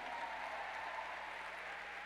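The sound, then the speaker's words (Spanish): Applause from a church audience, a steady, continuous wash of many hands clapping at low volume throughout, with no distinct individual claps standing out. “Y dale un aplauso al Señor.”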